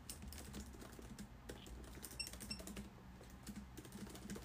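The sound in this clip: Typing on a computer keyboard, a faint run of rapid, uneven key clicks that continues throughout without talk.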